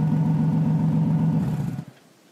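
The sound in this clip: A car's engine hums steadily as the driver makes a quick turn on a forest road, a low buzzing tone that holds for most of the moment before dropping away abruptly near the end.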